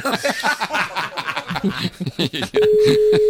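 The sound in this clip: A steady telephone call tone as a host rings a listener, starting late and holding one flat pitch to the end, after a stretch of people talking and laughing.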